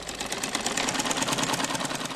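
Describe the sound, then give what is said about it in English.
Sewing machines stitching in an airy room in a compound, worked by a couple of girls: a continuous, fast mechanical rattle and whir at steady loudness, with no talk. “In an airy room in the compound, we find a couple of girls stitching and working on sewing machines.”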